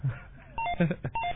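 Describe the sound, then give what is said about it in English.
A telephone signals an incoming call with a brief burst of short electronic tones at a steady pitch, a few quick beeps in a row. “Oh, we have a phone call. I just let it ring. Yeah, just let it ring. Let it ring.”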